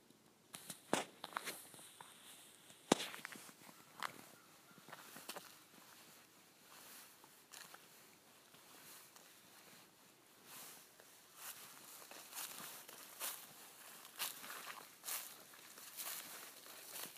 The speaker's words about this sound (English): I'm deliberately walking on leaves so that you'll hear more.